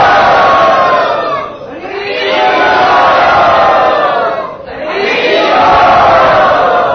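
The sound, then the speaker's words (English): A crowd at a religious gathering chants "Hari Bol" in unison to welcome Giriraj Maharaj. There are three loud, sustained swells of massed voices, separated by brief dips. “Let us all welcome Giriraj Maharaj by chanting Hari Bol. Hari Bol!”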